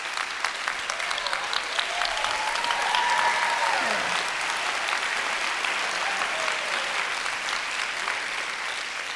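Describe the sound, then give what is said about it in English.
An audience applauds a fiddler from Randolph County, West Virginia, with dense, even clapping that holds steady for about nine seconds with no voices. “It's got to be Woody Simmons, who I think is here in the audience tonight. I might give a hand to Woody.”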